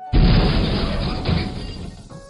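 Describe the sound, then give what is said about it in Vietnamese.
A huge explosion of an enormous glowing orb bursting in the sky erupts as a sudden, loud crash with a rumbling tail that slowly fades. “Một tiếng nổ kinh thiên động địa, quang cầu to lớn rốt cuộc cũng nổ tung trong không trung”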